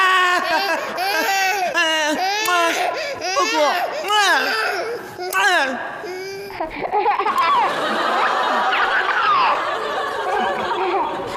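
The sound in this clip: A baby wails in repeated rising-and-falling bursts while an adult speaks soothingly over the cries. The crying then gives way to mixed voices and chatter.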